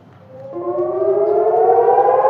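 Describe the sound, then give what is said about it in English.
A civil defense siren wails a rocket-attack warning in southern Israel, a steady rising tone that swells in from a low start and holds loud, sustained and alone with no voices. “When sirens warn of a rocket attack, residents of Eilat in southern Israel have about 30 seconds to get a shelter.”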